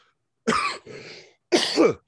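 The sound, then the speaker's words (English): Coughing: a harsh burst, then a softer, rougher throaty rasp, then a second sharp cough after a brief pause, all alone against silence. “Was that a cough? Not... That was a cough.”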